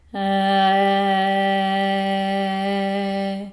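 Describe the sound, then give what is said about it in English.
A deep, low-pitched vowel tone used as a labour breathing technique, held as one steady, continuous note for about three seconds. The voice is rich in harmonics and stays at an even loudness, alone with no other sounds. “Now, it's not that important what sounds you make. You may actually make a sound that sounds nothing like this, but as long as it's a deep, low tone like this”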